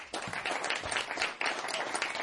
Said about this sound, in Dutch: En wel in de persoon van pianist, geef hem een groot applaus, Bulo Klat.